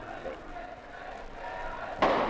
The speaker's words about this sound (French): Les grenades pleuvent maintenant en plein milieu des manifestants.